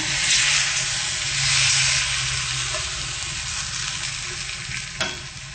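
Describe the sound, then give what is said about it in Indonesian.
Loud, steady sizzling from a hot frying pan as water is added to the cooking food, with scraping stir sounds throughout and a brief clatter near the end. “Setelah itu masukkan air, tambahkan semuanya.”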